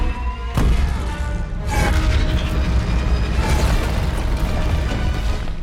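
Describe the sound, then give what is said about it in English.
Explosion sound effect of a planet blowing up: two sharp booming bursts early on give way to a dense, roaring rumble that stays loud to the end, with no voices. “Why was Kajimi the chosen planet to blow up? Also, I'm not gonna lie, that explosion does not look great.”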